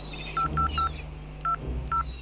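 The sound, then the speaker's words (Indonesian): Keypad beeps from a wristwatch being used to dial a call: five short electronic tones, three in quick succession, then two more spaced apart, over a faint steady hum with no talking. “Coba, uh, Paman Giri akan hubungi dulu lewat jam tangan ini.”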